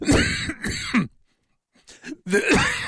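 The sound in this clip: A person coughs and clears their throat after inhaling something. Two harsh, loud bursts are followed by a short silence, then more rough throat clearing and coughing.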